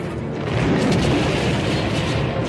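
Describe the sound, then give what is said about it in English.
Crashing rumble of an ice cave-in set off by a laser blast, a dense, loud roar that holds steady across the whole clip with no separate hits standing out. “Another blast starts an ice cave-in and all but buries the frightened C-3PO.”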